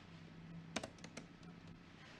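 A computer keyboard clicks faintly as someone types while setting a custom spreadsheet cell format. A brief cluster of a few sharp taps gives way to softer scattered ones over a low steady hum.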